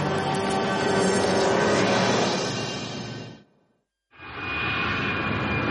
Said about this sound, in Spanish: el avión continúa volando en plena noche